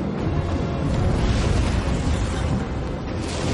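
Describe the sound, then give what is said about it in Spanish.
Catapults in a fantasy action film fire dozens of flaming projectiles, a loud, continuous roaring rumble with heavy low booms that swells and holds throughout. “Las catapultas lanzan decenas de proyectiles encendidos.”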